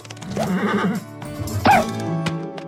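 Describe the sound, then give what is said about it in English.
Vintage cartoon horse sound effect from Spirit Riding Free: a wavering, nasal whinny, then a shorter, sharper squealing neigh, followed by a couple of faint clicks. “But even Spirit Riding Free still sometimes needs a dose of the vintage cartoon sounds.”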